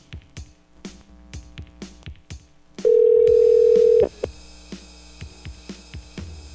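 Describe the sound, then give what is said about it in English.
A telephone dial tone while calling a radio show caller: a loud, steady tone lasting about a second, with many sharp clicks before and after it. “Oh, speaking of which, I gotta call this guy. Let's see here.”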